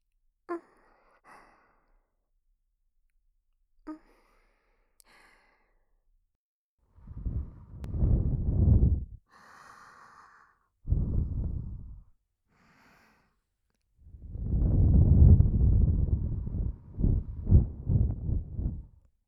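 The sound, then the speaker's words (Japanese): Breathy blowing of air to clear away dirt: a few long soft whooshes followed by a quick run of short puffs, with no voices. “しっかりフーフーしないと汚れが取りにくいんだよ。”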